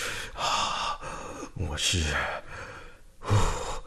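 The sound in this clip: Someone takes deep breaths to calm down: soft, airy inhales and exhales that swell and fade several times, breathy and unhurried.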